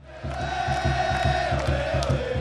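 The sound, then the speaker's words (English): Loud, steady crowd cheering fills the stands at a Seattle Sounders soccer match at Qwest Field, with a quick low pulsing running beneath the roar throughout. “Here at Quest Field, where the Sounders play, the place has the feel of a World Cup soccer final. Every seat is sold out, and the cheering is deafening.”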